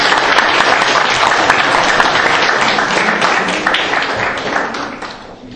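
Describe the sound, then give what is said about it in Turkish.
Dense applause from an audience at a live event where gifts are handed out: a steady, loud wash of overlapping claps that holds for most of the stretch, then tapers off near the end. “Alkışlayalım.”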